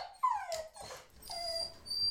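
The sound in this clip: A dog left alone at home whimpers in a few thin, high whines. Some whines slide downward in pitch, with faint breathy sounds between them, and the whole sound is fairly quiet.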